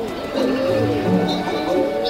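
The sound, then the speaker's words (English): Snares penguins and shearwaters call together at an island nesting ground, a dense run of wavering, braying cries with a few higher calls rising above them. “There's the snares penguins. Shearwaters come too.”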